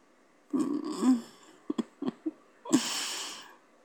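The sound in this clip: Close breathing right into the ear: a long airy exhale, then a few short puffs and gasps, then another long breath. The sound is soft and intimate, with no words spoken.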